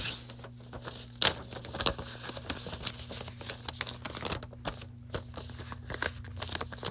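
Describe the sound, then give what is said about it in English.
Sheet of paper folded by hand into a basic fold: many crisp crinkles and rustles, with a sharper crackle near the start, over a faint steady hum. “So mine is just going to be a basic fold. So I'm going to let you guys hear it. I'm just going to fold it up.”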